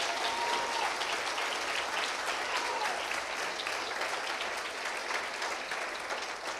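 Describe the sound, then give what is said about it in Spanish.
Audience applause: dense, continuous clapping from a crowd that holds at an even, loud level for the whole stretch, with no voices standing out. “dele un aplauso a Cristo, por favor, por tenernos en este país.”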